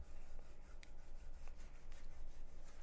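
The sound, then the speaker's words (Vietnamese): A rat scratching inside a plasterboard ceiling: faint, continuous rasping and rubbing with a few light clicks scattered through it. “không biết sao con chuột nó lên trên được nữa. Nó cứ kêu lọc cọc suốt à.”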